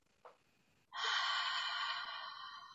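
A breathing exercise demonstration: a brief breath sound, then a long, loud, steady exhale that starts abruptly and eases slightly toward the end, showing slow relaxation breathing.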